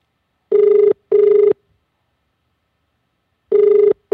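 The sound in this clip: A telephone ringback tone plays while a call is being placed: two steady, buzzy tone pulses, then a long silence, then the next pair of pulses begins.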